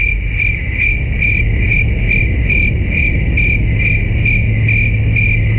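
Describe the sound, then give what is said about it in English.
Crickets chirping loudly and continuously in a fast, regular pulsing rhythm of many high trills over a low steady hum. “Is the answer crickets?”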